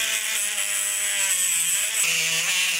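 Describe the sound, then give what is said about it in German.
A saw cuts through a thigh bone, making bevel cuts in a sawing block. It gives a steady, high-pitched whine with a buzzing undertone, and the pitch dips slightly partway through. “Jetzt kommen noch solche sogenannten Abkantschnitte. Jetzt wird gesägt wieder.”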